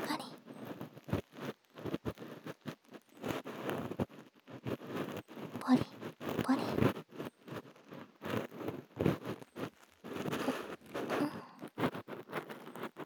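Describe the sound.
Scratchy scraping of an ear pick cleaning deep inside an ear, many soft, rhythmic rasping strokes in quick irregular bursts, close and intimate.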